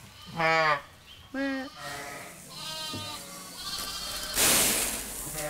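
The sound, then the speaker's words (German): Ewes and lambs bleat in a farm barn during lambing season. Two loud, wavering bleats are followed by fainter overlapping calls, and a burst of rustling noise comes near the end. “Nur kurz vor und nach der Geburt sind die Mutterschafe im Stall, bis sie Ende März wieder raus auf die Deiche rund um den Hof kommen.”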